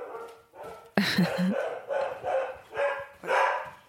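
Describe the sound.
A dog barks in a rapid series of sharp, loud barks, with a softer whimpering yip at the start before the louder barking begins.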